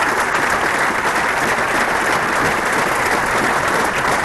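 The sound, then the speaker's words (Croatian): Ovation at the Yugoslav Drama Theatre in Belgrade, as a gathered crowd bids farewell to actor Nebojša Glogovac: a thick, unbroken wall of applause from many people, loud and even throughout with no pauses. “Uz 15-minutni aplauz i ovacije okupljeni u Jugoslovenskom dramskom pozorištu oprostili su se od Nebojše Glogovca.”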